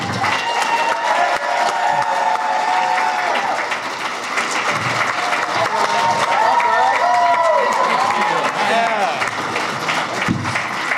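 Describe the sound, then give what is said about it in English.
Crowd applause and cheering greet guests at a Supernatural panel at Rhode Island Comic-Con 2021, with loud, sustained clapping mixed with whoops and voices throughout and a few sharper claps standing out. “So let's get some rhythmic clapping. That's going to be our thing.”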